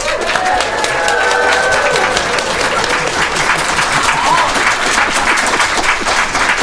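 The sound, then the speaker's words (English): A live audience at the China Institute in Manhattan applauds and cheers, a loud, dense wash of clapping that holds steady throughout, with cheering voices mixed in. “Let's hear you make some noise, folks.”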